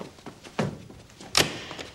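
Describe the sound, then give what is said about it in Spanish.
A door being closed gives two dull thunks, the second brighter and sharper than the first, over quiet background sound. “cierra la puerta”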